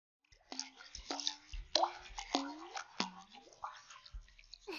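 Lotion poured onto skin gives a quiet run of wet, squishy squirts and plops, each with a short downward-gliding tone, in an uneven rhythm.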